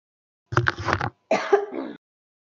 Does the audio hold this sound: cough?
yes

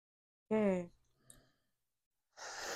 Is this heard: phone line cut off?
no

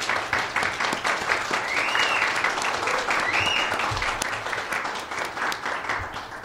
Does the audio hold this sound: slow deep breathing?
no

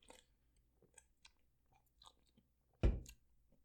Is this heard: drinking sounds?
yes

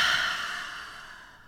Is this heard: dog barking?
no

